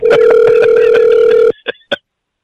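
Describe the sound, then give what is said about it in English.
A telephone call is dialed: a loud steady tone lasts about a second and a half, then two short beeps follow before silence. “Let me call her back.”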